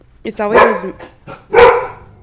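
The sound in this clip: Dogs barking in two loud, harsh bursts, the first longer and more drawn out than the second, with quiet gaps between them.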